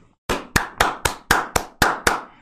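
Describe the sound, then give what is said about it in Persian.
Eight sharp hand claps from one person, applauding in honour of someone, fall in a steady, even rhythm, each clap crisp and bright with a quick decay. “آفرین آفرین، یه دست به افتخارش من بزنم اینجا.”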